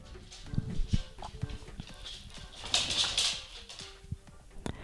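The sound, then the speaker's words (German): A dog's paws patter faintly across a floor in many light, irregular taps under low background noise. “vielleicht hörst du hier im Hintergrund so ein bisschen Getapse. Das ist mein Hund.”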